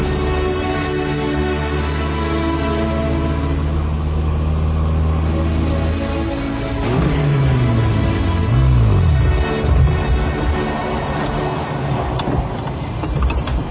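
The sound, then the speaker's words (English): A car engine runs while the driver shifts into neutral, then second, and pops the clutch. A steady mid-pitched hum gives way to engine tones that dip and climb again. Loud throughout, with no talk. “Drop her into neutral. Slide her into second. Pop the clutch.”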